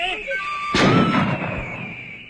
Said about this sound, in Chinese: 还愣着干什么？开枪！